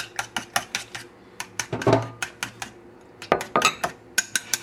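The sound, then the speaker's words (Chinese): Utensil clinking against a bowl while mushrooms are stirred into beaten egg: many quick, bright taps in an uneven rhythm, with a couple of louder, longer clattering scrapes among them. “我们就把香菇给放进去蛋液里面。好，那稍微搅拌一下。”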